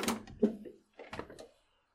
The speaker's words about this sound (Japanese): 少し窓を開けるか。